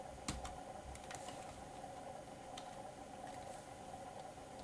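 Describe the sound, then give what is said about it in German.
A computer keyboard gives a few faint, sharp clicks as the Tab key is pressed, scattered irregularly over a steady low hum. “Können wir entweder Tab drücken oder F8.”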